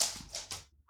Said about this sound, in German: Was Sie gerade hören, ist mein Hund, der auf dem Parkett ausrutscht, weil er gerade eine Fliege jagt.